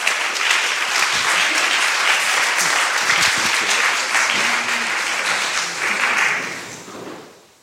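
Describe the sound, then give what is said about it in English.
Applause from a church audience welcoming a guest speaker, a thick, sustained clapping from many hands that stays loud and even for several seconds, then fades away at the close. “So let's put our hands together and welcome Dan Snead.”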